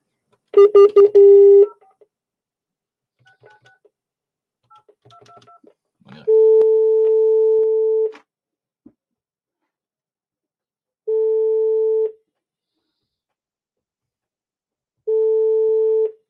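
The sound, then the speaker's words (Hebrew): Telephone keypad tones from a call to the police about a complaint: a quick burst of dialing beeps, a few faint clicks, then three long, steady ringback tones separated by silent gaps. “ואני הולך עכשיו גם להתקשר למשטרה, לראות מה עם התלונה שלי.”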